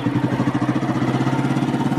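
A motorcycle engine runs with a loud, steady, rapid throbbing pulse that stays even throughout, with no voices over it.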